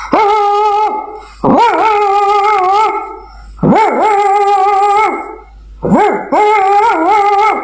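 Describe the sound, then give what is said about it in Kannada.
A person imitates a grandmother's pet dog barking, giving four drawn-out, wavering voiced bark-howls with brief pauses between them. The calls are loud and steady, with no other sound around them. “ಅಜ್ಜಿ ಸಾಕಿರುವ ಒಂದು ನಾಯಿ ಈ ರೀತಿ ಬೊಗಳುತ್ತಿತ್ತು.”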